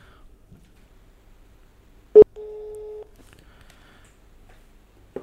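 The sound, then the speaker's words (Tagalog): Telephone tone while dialing out a call: a sharp click, then a single steady electronic beep lasting well under a second, with a brief faint sound near the end and otherwise near silence. “Ito, tatawag tayo ng isa ulit.”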